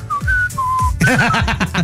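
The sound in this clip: A person whistles a short tune: a few sustained, clear high notes, then quicker wavering notes near the end. The whistling is loud and steady and stands alone without talk.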